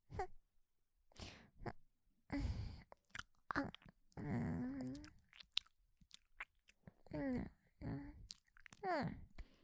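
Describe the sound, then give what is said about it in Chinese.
Someone eats creamy cake, making soft chewing and mouth sounds. These alternate with voiced murmurs and talk in a quiet clip with many short, irregular bursts. “不吃算了，我自己吃。”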